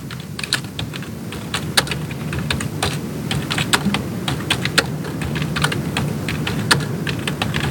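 Rapid typing on a computer keyboard as a message is written: many quick, uneven clicks and taps running steadily through the whole stretch, with no one speaking.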